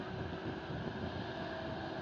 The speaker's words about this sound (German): Wer rollt hier vorne noch an? Die altgedienten Kollegen aus England, British Airways, kommen jetzt vom größten Flughafen Europas hier zu uns, vom Heathrow Airport in London.